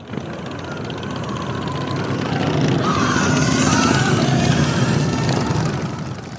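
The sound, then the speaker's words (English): Motorcycle engines drone on a highway as riders travel two and three abreast toward Ignacio. The roar swells louder through the middle and eases slightly toward the end. “They ride two and three abreast on the highway, revving their engines and stopping traffic en route to Ignacio.”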